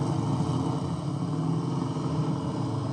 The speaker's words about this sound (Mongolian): Хой болгоомжлоорой, машин ирж байна шүү.